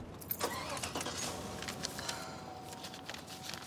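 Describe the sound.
Someone gets in behind the wheel of a car, with faint clicks and rustles followed by a low engine hum, all quiet.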